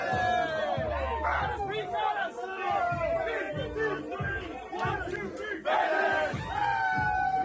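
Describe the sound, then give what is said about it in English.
Many team players in a locker room cheering, shouting and singing together, a loud rowdy crowd of voices chanting in a repeating rhythmic pattern, with whoops rising over the steady chorus throughout. “That noise you're hearing is 25 happy Buffalo Bandits players cheering and singing in the locker room as Dane Smith fires up the party.”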